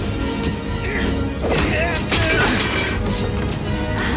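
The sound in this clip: A crowbar strikes a man in a fight on a swaying trailer, giving a few heavy thuds and clanks over a dense, loud continuous background.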